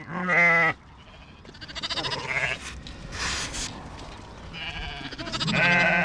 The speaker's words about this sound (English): A local crofter gathers his flock into a muddy enclosure to mark and castrate the lambs before setting them loose to graze.